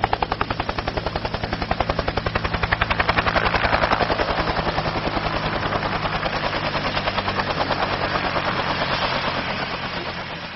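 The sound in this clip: Helicopter rotors thud steadily as the aircraft lands on a warship's stern deck: a loud, continuous rhythmic chopping over a low engine drone, swelling slightly partway through and holding steady to the end, with no voices.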